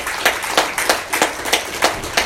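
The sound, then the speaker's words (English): Audience applause for military veterans standing in a crowd: many hands clap together in a steady, even rhythm, each beat a bright, distinct burst. “If you've ever served in the military, would you please stand at this point? Amen. Look at all these people. Look around. Give them a round of applause.”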